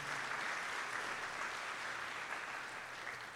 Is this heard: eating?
no